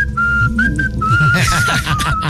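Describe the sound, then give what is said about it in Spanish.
Whistling plays in the background: a thin, steady tone held throughout with small pitch steps, like a slow tune, over a low, busy murmur. “si van a poner silbidos de fondo, pónganle.”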